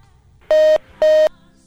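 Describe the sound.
Two identical steady phone-line beeps sound after a caller's call drops, each about a quarter second long with a short gap between them. They are loud and clear, with no voices.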